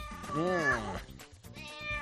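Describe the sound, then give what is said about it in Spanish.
An angry cat meows in a long, wavering, harmonic yowl whose pitch bends up and down. A briefer cry follows, and the whole clip is fairly faint. “¿Es un gato? Es un gato. Es un gato cabreado.”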